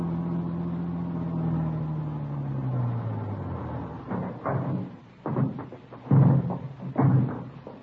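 Engine drone of a car being driven out to a district, its humming tone sinking steadily in pitch over the first few seconds. A few short, louder bursts follow.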